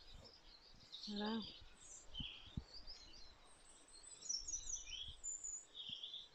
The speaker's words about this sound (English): You hear the birds, well, listen to them all.